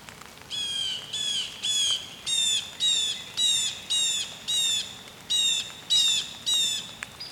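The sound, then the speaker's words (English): A blue jay calls loudly again and again in a long, regular series of harsh, squawking notes. The calls are evenly spaced and bright, standing out clearly above a low, steady background hiss. “That's a blue jay.”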